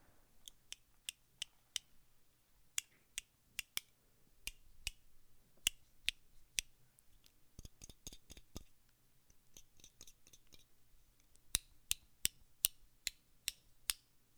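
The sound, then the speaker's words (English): A plastic bag clip is snapped shut again and again, making many sharp, dry clicks in irregular clusters, quiet and with no other sound around them. “It's a bag clip.”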